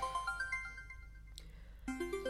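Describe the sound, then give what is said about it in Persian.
A faint melodic ringtone signals an incoming phone call, a sequence of bright electronic notes climbing in pitch, breaking off briefly, then starting the rising phrase again. “جواب بده دیگه حالا بعدا خودت بهش زنگ میزنی دیگه به تو زنگ زده با تو کار داره”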